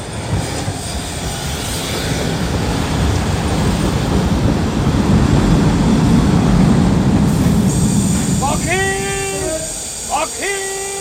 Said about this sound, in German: Na, da ist er ja, der Zug.